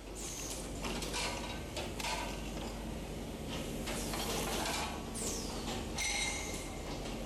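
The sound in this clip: A machine blow-molding a plastic bottle gives off faint, continuous mechanical whirring and clatter, with a few brief high whining tones that sweep in pitch.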